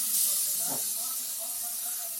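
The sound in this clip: Oil sizzling in a cooking pan gives a steady, bright hiss that runs unbroken from start to end at a moderate level.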